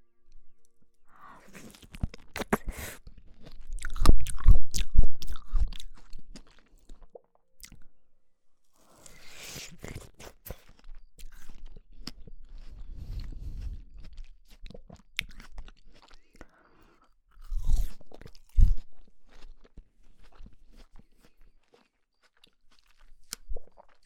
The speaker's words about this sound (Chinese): 我很喜欢吃小瓜的这个种，我觉得好好吃。